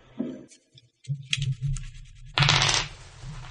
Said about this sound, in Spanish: Y así que tiro 6 dados en iniciativa.